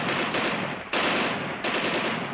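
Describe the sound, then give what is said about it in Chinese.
Machine-gun fire is aimed upward at an enemy aircraft circling overhead. Loud, dense rattling bursts come in a few abrupt stretches of sustained fire with no pauses between them. “于是就在一架飞机盘旋一圈要转弯的时候，战士们端起机枪冲着敌机就是一通仰射”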